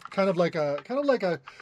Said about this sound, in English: Whoever's typing, mute yourself.